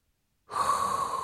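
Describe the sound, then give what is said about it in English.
A person draws in a deep breath: after a short silence, a sudden airy inhale starts and holds steady and loud to the end, with no other sound. “there is only one thing left to do, and that is inhale a hot breath.”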